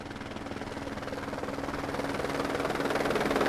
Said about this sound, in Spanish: El helicóptero está aterrizando.